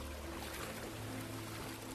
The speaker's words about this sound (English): Let the soothing sound of many waters wash over you as you prepare to fall asleep tonight.